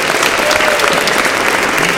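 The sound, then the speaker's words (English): Audience applause at a live event: a steady, loud wash of clapping from many hands, with no breaks and no voices. “give these guys another round of applause for Hash Lug Radio”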